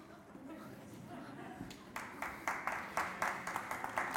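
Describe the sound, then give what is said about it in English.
Congregation clapping in church, starting softly among talk and settling into a steady, rhythmic beat of many claps in the second half, growing somewhat louder. “I mean, I must be doing well because that's an easy clap.”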